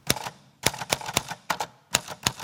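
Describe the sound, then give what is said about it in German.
Typewriter keys struck during a performance by a young art-academy collective on an event's opening evening: crisp, rapid clacks in uneven bursts with short pauses between them, loud and alone without voices. “Handy weg und ran an die Schreibmaschine.”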